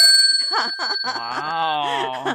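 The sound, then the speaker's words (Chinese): A small bell is struck and rings with a high, clear, sustained tone that lingers and slowly fades while people talk over it. “你是不是很久没听到这个铃铛了？ 是， 我再敲一次给你听。”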